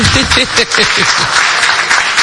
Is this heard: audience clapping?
yes